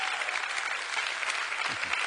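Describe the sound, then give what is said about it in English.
Sustained applause from a church audience during a sermon: a dense, even wash of many hands clapping, holding steady at a fairly moderate level for the whole stretch without breaks. “And I think that deserves a great big round of applause for Jesus.”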